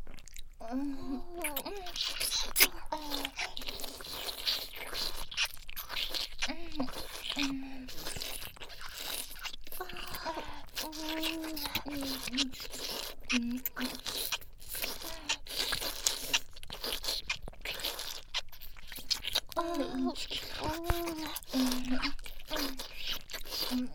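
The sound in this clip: Crunchy food being eaten, with many sharp bite and chew crackles in a busy, irregular rhythm, mixed with wet mouth sounds and brief voiced hums between bites.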